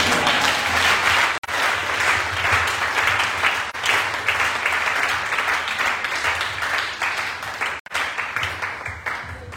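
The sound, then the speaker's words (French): A church audience applauds in praise of the Lord. The clapping is loud and continuous, with a dense, even texture broken by a few sudden brief dropouts. “j'ai prié que quelqu'un dise Amen avec moi et acclame le Seigneur.”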